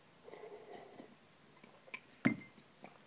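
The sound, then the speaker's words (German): A faint sip of coffee with cinnamon: soft, quiet slurping and mouth noises, then one sharper wet gulp-like click near the end, followed by a couple of tiny drips. “Und Schlückchen Kaffee.”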